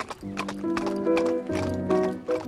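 Horses gallop in quick, rhythmic hoofbeats, with sustained whinny-like tones rising over the pounding.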